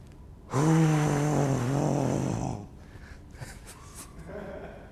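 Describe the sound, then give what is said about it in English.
A voice imitates David Suchet's breathing as Aslan breathing on the children: one long, loud, breathy voiced exhale lasting about two seconds, tapering off into quiet. “as the voice of Aslan, anytime Aslan breathes on the children, God bless his pure little heart, David Suchet goes,”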